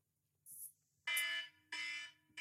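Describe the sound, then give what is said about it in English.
An alarm used as a five-minute timer signal during a discussion: harsh, buzzy electronic bursts repeating with short gaps, the first one thinner and higher than the loud, rich-toned blasts that follow. “When the alarm goes, which will sound something like this, and hopefully you can hear this at your end.”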